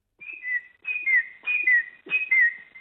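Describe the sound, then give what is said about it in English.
A person whistles an imitation of a noisy miner's call. Four repeated phrases, each a high clear note sliding down to a slightly lower one, with short pauses between them. “I think what you're hearing is the noisy miner.”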